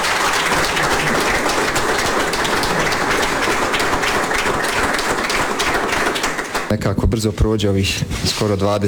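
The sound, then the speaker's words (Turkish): Journalists applaud a veteran footballer arriving at a press conference before a match in Zenica, a dense, steady burst of clapping lasting several seconds before it breaks off and a man starts speaking. “Zenitsa kentinde oynanacak karşılaşma öncesi basın toplantısına çıkan tecrübeli futbolcu gazetecilerin alkışlarıyla karşılandı.”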